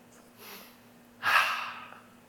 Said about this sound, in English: Okay. Deep breath.